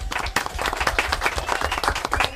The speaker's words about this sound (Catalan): Un aplaudiment, molt bé.